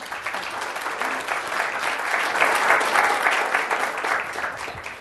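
An audience applauds to welcome a state commissioner onto the stage at a public policy event. The dense, steady clapping swells toward the middle and then tapers slightly.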